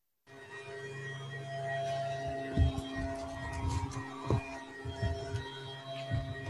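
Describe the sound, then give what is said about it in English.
Faint, steady engine drone of a neighbour's leaf blower blowing leaves outdoors near a porch. It holds an even tone throughout, with a few brief knocks on top. “We're out on our porch, and our neighbor decided to blow leaves. So this may be a problem.”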